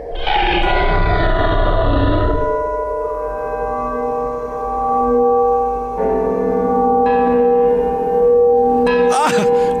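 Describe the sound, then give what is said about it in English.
Every bell in a house ringing at once: layered, sustained metallic tones that keep sounding together, with fresh strikes joining partway through and a brief clash near the end. “What is it? Every bell in the house must be ringing.”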